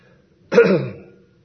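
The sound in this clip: A person with asthma clears their throat once, a short, rough, raspy burst that quickly tails off into quiet.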